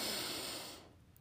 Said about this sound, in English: So inhale.